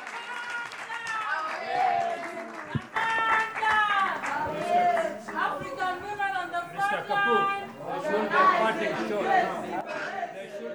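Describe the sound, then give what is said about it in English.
Members of social justice centers chanting together as a panel event in Nairobi winds down; a mass of voices rises in loud, tuneful, rhythmic phrases, sustained throughout with scattered shouts and overlapping chatter. “as you hear the panel event tail out, what you hear are the voices of the many members of social justice centers that were there that night, chanting, sharing their voices and their power”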